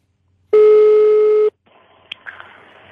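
Telephone line tones during dialing: one loud, steady beep holds for about a second, then cuts to a quiet line hiss broken by a couple of sharp clicks.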